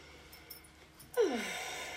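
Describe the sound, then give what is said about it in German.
A deep breath drawn in through the nose during a calm gratitude and relaxation exercise: after near silence, one loud, airy inhale starts partway through and carries on to the end. “einmal tief einatmen durch die Nase”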